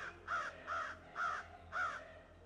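Four harsh crow caws, evenly spaced and clearly heard over a low, steady hum.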